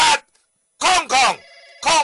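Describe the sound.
A telephone rings once in a short, steady multi-tone burst between stretches of lively, excited talk in an advertisement for an eye-care phone line.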